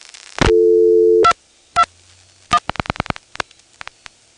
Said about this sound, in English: When we dial 221 from here, the register sender dials 51.